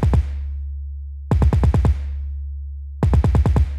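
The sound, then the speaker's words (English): An 808 bass is played too fast, so its overlapping hits make the deep low tone wobble and distort. Three quick bursts of rapid, clicky attacks ride over a continuous booming bass, with no voices. “this is what happens if you play your bass line or your 808 drum too fast. You're going to hear the bass wobble and it sounds distorted. And the reason is because it's overlapping.”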